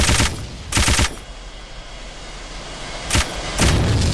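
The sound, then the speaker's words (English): Rapid machine-gun fire from a video game comes in a few loud, chattering bursts. A long quiet gap separates the early bursts from the later ones. “Your base was repaired completely. Machine gun. Level 3.”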